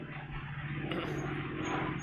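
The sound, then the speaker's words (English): An airplane flying overhead makes a faint, steady low rumble with a faint hum in it. It holds level for the whole short stretch with no voices. “Or yeah, I guess that's an airplane, not a helicopter today.”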